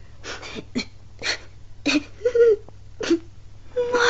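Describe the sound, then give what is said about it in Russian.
A boy cries in a string of short, broken whimpering sobs with pauses between them, over a faint steady low hum. “Мальчик, а почему вы плачете?”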